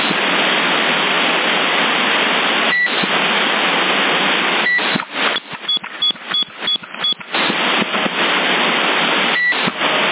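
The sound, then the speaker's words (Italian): Steady hissing static on a CB radio channel in Sassari, with a few brief high beeps and choppy breaks in the noise. “Stai uscendo già, sente solo il bip e basta.”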